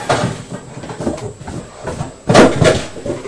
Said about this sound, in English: Open the cupboard. Open the cupboard.